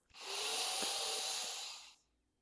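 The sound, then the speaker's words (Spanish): A deep inhalation through the nose during a guided meditation: one long, steady, airy breath lasting about two seconds, with no talk over it. “Vuelve a inhalar una vez más.”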